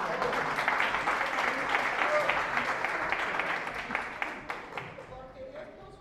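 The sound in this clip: Audience applause at a seminar, a dense steady wash of clapping that thins and fades over the last couple of seconds, with voices also present.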